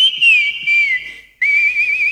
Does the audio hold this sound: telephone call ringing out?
no